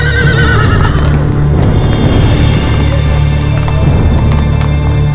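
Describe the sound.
A mule neighs loudly, a shrill whinny at the start, followed by hooves clip-clopping over a constant low drone.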